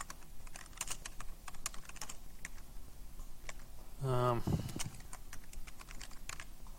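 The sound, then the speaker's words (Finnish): Java-like pseudocode typed on a computer keyboard: many light, fast clicking keystrokes in an irregular rhythm all the way through, with a brief louder tonal sound midway. “nyt kirjoitan jotain Javan kaltaista tässä vähän silleen niin kuin pseudokoodina.”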